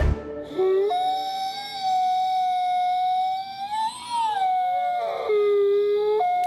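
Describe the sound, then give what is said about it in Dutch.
A wolf howls in one long, clear, sustained note. The pitch holds steady, then swells upward, drops lower and climbs again near the end, alone with no talk. “Dit is het gehuil van een wolf.”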